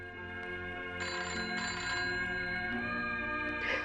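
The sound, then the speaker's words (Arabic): A telephone rings on and on with a bright, bell-like electronic tone that repeats steadily over a sustained tonal background, with no talk over it. “التليفون. سيبيه يضرب، سيبيه يضرب على طول. مش هترد على التليفون؟”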